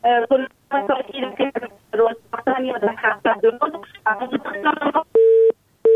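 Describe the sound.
Telephone call to a call-in program cutting off: a caller's voice talks through a narrow, phone-filtered line in choppy bursts, then a steady single electronic beep tone sounds near the end.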